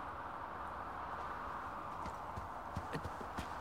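Hooves of a small pony clip-clopping as it walks with a rider, a few soft hoofbeats in the second half over a steady hiss.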